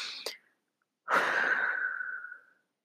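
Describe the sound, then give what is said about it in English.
A deep breath in and out: a brief sharp inhale, a short pause, then a long, soft, breathy exhale that trails away, all fairly faint. “I'd like you to take a deep breath right now. Let's do it together.”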